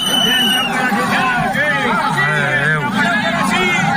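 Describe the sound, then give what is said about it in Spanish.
A tense crowd of protesting farmers near the port of Valencia at midday: a loud, continuous babble of many overlapping voices. “Este es el sonido de los momentos de tensión que se han producido este mediodía cerca del puerto cuando la manifestación de agricultores convocada por ABA, la Unión Llauradora y UPA”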